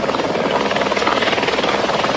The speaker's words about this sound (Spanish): La tarde de este miércoles se unió un helicóptero cisterna de Quito, de aeropolicial, que se abastece del lago San Pablo y arroja agua en las faldas del Cotacachi.